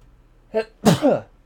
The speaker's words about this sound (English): That was a sneeze.